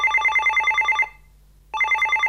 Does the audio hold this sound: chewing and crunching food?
no